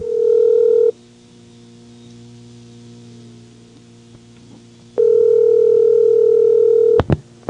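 A telephone dial tone hums steadily, cuts out for several seconds and then returns. Near the end it breaks off for a couple of short touch-tone dialing beeps.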